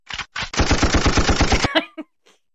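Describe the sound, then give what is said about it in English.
A gunfire sound effect: machine-gun fire with two brief bursts, then a long, even run of rapid shots. A few scattered shots trail off at the end. “I don't think you can use guns on the podcast”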